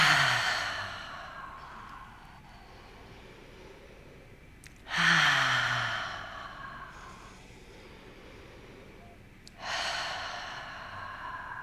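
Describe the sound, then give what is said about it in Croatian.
Slow breathing during a guided relaxation exercise, in through the nose and out through the mouth. Three loud, airy breaths, each fading away, are separated by quiet pauses. “Zatvori oči i uzmi udah na nos, izdah na usta i tako tri puta.”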